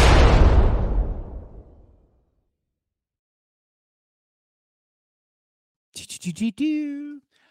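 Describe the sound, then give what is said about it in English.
A bomb explosion sound effect: a single loud, deep boom that decays steadily over about two seconds into silence. After a long pause, a short burst of voice-like sound follows. “Oh, let me play. Let me hit the bomb. I forgot all about that.”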